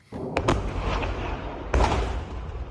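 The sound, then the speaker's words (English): Two heavy explosive booms from Iranian strikes on a US airbase in Jordan, each with a sharp onset and a lingering low rumble, with a few smaller pops between them. “The moment a US airbase in Jordan came under Iranian attack. It's impossible to say if these were the strikes that killed the two US service personnel, but at least two impacts can be seen as huge fireballs”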